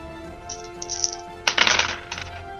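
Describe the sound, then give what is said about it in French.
Four dice rolled during a tabletop role-playing game of Degenesis clatter and rattle in quiet bursts of short clicks. The busiest flurry comes midway, over a faint steady hum. “Vas-y, relance les dés. De nouveau 4 dés.”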